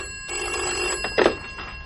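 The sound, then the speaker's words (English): A telephone bell rings in a flat: a steady, bright electronic ring with a few short pulses, one louder burst near the end, with no voices. “As I walked in, the phone was ringing.”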